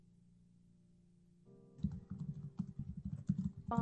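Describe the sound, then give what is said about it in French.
Rapid typing on a typewriter: after a low steady hum, quick irregular key strikes start and clatter on fairly loudly to the end, with a brief exclamation from a voice. “il tape à dactylo.”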